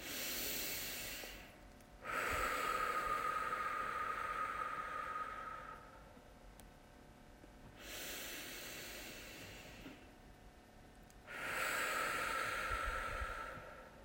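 Slow, deep breaths during a sacral chakra meditation, drawn out into long airy hisses with quiet pauses between them, soft and alone.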